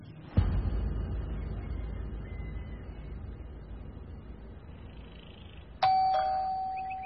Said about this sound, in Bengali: Calling bell টেপার কয়েক সেকেন্ডের মধ্যেই দরজা খুলে গেল।